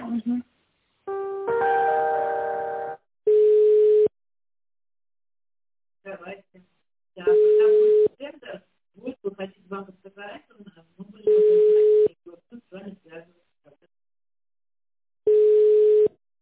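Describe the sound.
Ringback tone of a telephone call being connected, sounding as four steady, mid-pitched beeps of under a second each at even intervals of a few seconds. Brief talk fills the gaps between beeps, and a short chord-like tone comes near the start.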